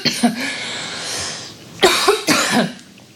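Coughing brought on by a tickle in the throat comes as a few loud, dry coughs: a brief one first, then harsher bursts in quick succession after a short pause.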